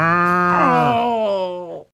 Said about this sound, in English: I think this cow likes me.